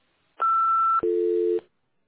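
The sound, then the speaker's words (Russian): An answering-machine beep sounds before a message is left on a service line, a two-note electronic signal with a higher tone followed by a lower one, each about half a second long, heard alone. “Оставьте свое сообщение после сигнала.”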